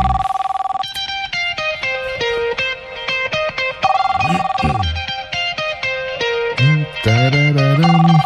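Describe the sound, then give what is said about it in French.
A text message notification chimes on a phone as a bright electronic ringtone-like melody of many quick tonal notes that shift in pitch, loud and steady throughout with no voices. “Tiens, un SMS pour toi”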